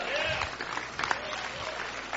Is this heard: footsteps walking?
no